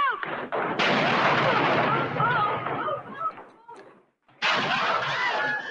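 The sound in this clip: Gunfire from a saloon fight scene in a film: many shots in a dense, continuous, loud barrage that breaks off in a brief lull, then resumes just as heavily.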